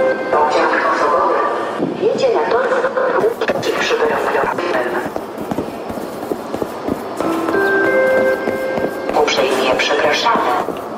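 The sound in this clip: Train sounds at a railway station: a dense, continuous mix of rumble and clatter, with a station public-address voice over it throughout.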